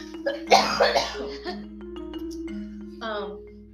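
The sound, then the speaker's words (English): A person with COVID coughing: a few harsh, raspy coughs in quick succession, loud at first, then trailing into quieter throat sounds and a brief vocal noise. “Excuse me, y'all. COVID cough at its finest.”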